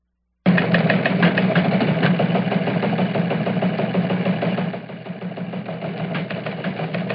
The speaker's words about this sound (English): Mario that says, hey, the teletype machine is starting to spin in the studio. We better check it out.